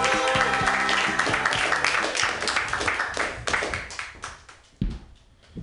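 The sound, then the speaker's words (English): Audience clapping for a comedian at an open mic: many hands clapping in a dense, lively burst that gradually thins toward the end, leaving a few isolated claps. “Clap wildly for Cedric Drake!”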